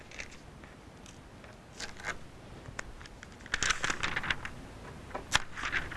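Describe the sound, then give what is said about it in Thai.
Paper being folded and pressed to crease it along marked lines for a bird-wing shape: soft, dry crinkling and scraping rustles, quiet overall, with a few sharper, louder crackles toward the end. “จากนั้นนะคะเราก็พับนะคะพับนะคะเพื่อจะกดรอยนะคะ”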